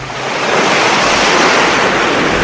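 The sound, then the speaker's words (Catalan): Immense ocean waves and wind at sea around a sailing vessel heading into a storm, a loud, continuous roar of surf and gusting wind with no voices. “Aferreu-vos on pugueu! Ens atracam a ones immenses!”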